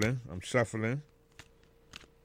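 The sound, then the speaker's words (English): A brand-new deck of game cards, some still stuck together, is shuffled with faint riffling clicks right after a short stretch of talk. “So I'm going to do a little shuffle here. I think we should pick a card.”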